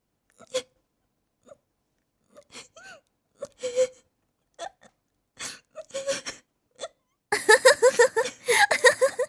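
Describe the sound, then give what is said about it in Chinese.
A woman who heads an anti-gang bureau cries out of anger, starting with scattered gasps, hiccup-like catches and whimpers separated by pauses. Near the end these build into a long, continuous run of wailing sobs. “一个堂堂反黑局局长居然被气哭了。来来，别哭了”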